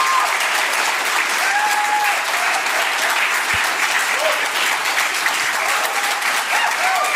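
Applause from an audience at a church gathering, dense and steady, holding at the same loud level throughout without a break.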